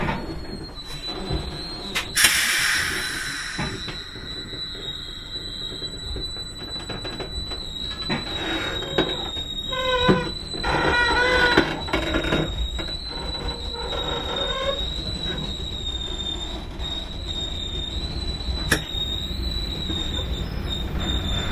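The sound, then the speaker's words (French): A French Corail intercity train runs with continuous rolling rumble and clatter, overlaid by a steady high-pitched wheel squeal throughout. No talk. “comme vous pouvez l'entendre, on n'est pas à bord d'un TGV, là. On est dans un train corail.”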